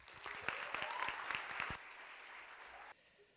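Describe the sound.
Applause from a chapel audience welcoming a speaker: dense, steady clapping for under two seconds, then a softer patter of claps that thins out further near the end.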